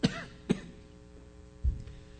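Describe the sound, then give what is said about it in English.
Three short, dry coughs from one person. The first two come close together, and the third is lower and duller after a brief quiet pause. “Is it all right if I get a cough drop? I did this once, you know, at 8:30, and I'm not used to it. It's been a long time, and this will help soothe my throat. I don't want to be coughing in the mic.”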